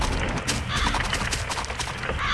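A horse neighs in a video game just after the stables are upgraded. The whinny sits within a dense, steady wash of game sound, with possible hoof clip-clops, and no talk.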